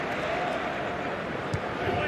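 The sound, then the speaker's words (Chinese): Applause and crowd noise from fans at a basketball game, a steady, dense roar that holds at an even level throughout, with one brief thud near the end. “现场的球迷呢对他是报以掌声。”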